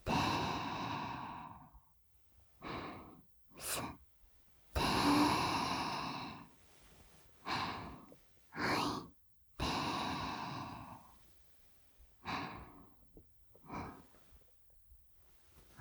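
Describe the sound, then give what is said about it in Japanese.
Deep breathing, with a long series of slow, breathy inhales and exhales, some of them voiced like sighs. The breaths come at an uneven pace with quiet gaps between them, and no one talks. “深呼吸、深呼吸、吸って、はい。”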